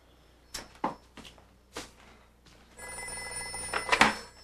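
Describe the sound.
A telephone ringing at night while people sleep. A few soft thumps come first, then a steady electronic ring with bright, sustained tones that swells louder toward the end.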